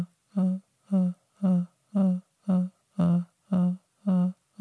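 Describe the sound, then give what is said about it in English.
Gentle vocal tapping as a singing exercise: eight short, soft, evenly spaced voiced pulses on one steady low pitch, each with a clean onset, and nothing else heard. “Now, one way we can explore this is just playing around with gentle tapping of our voice. And it sounds a bit like this.”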